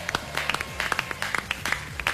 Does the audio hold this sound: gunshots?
no